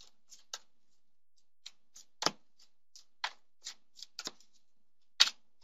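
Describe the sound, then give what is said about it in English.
Soft papery flicks and snaps of tarot cards being pulled from a deck during a reading, a series of brief, scattered sounds spaced irregularly, with no talk. “I'm going to just pull a few cards and tell you what guidance is coming through, okay?”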